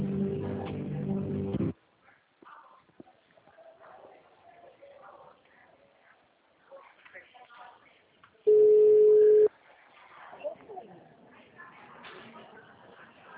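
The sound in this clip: Telephone line tones while a call is being transferred: a low buzzing tone holds for over a second, then quiet faint sounds follow, and a single short, steady, louder beep sounds near the end.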